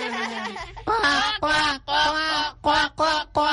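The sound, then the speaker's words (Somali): A person's voice imitates a bird call, producing a series of loud, nasal, squawking cries like a duck or goose, in short bursts with brief gaps between them. “aniguna waan jeclahay maadaama aan jeclahay shimbirtaydana bal aan mar kale codkeeda oo kala sameeyo”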